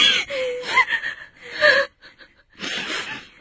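A child cries and gasps in a string of choked, breathy sobs with sharp intakes of breath. The bursts come loud and uneven, drop away briefly near the middle, then resume.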